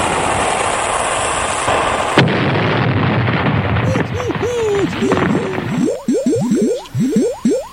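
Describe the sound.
A cannon fire sound effect opens with a loud, sustained roaring blast that cuts off abruptly. It is followed by many springy, boing-like chirps that sweep upward in quick succession.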